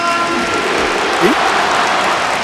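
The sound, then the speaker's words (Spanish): A football stadium crowd applauding in an ovation for a substituted player: dense, steady clapping and crowd noise that keeps a constant, loud level throughout. “Aplauso del estadio para Antoine. Ovación.”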